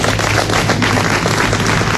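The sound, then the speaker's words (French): Loud, dense applause from an audience honouring a very old man, with steady, overlapping clapping that stays even and unbroken throughout. “il applaudit lui-même”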